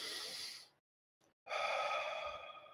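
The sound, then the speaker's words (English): A deep breath drawn in and then let out: two long, breathy rushes of air separated by a short silence, the second one fuller and slightly voiced, with no talking. “Can you take a deep breath?”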